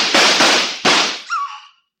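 Two loud gunshots crack out in a radio drama shootout between a trapped criminal and police, each with a long decaying tail, the second following the first after under a second.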